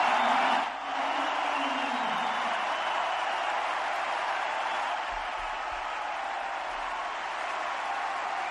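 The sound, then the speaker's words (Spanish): A Madrid tennis crowd sends off Rafa Nadal with sustained applause, a dense, even roar of clapping that holds steady throughout without breaks. “Pero la ascendencia del manacorí es evidente, y más en Madrid. Y por ello el público hoy le ha despedido así.”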